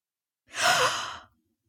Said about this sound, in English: We wanted you to hear her breathe in, but when you do it at home, see if you can make the inhalation silent.